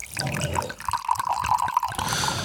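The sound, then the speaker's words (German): A drink poured from a bottle: a continuous gurgling, splashing stream of liquid with bubbling running throughout, fairly faint and heard alone. “Nachgeschenkt.”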